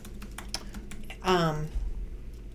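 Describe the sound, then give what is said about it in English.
Typing on a computer keyboard, with many faint, irregular key clicks tapping along while a voice briefly speaks in the middle. “I'm pulling it up right now, so sorry. I do believe if I type in YouTube/Mary Bicknell,”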